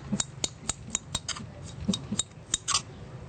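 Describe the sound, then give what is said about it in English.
Knife slicing ingredients on a cutting board while cooking Cambodian food, many crisp, quick, irregular taps and cuts, fairly faint and without talk. “So you just slice everything like this.”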